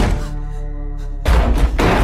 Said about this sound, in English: enters a mixing room and closes the door behind her.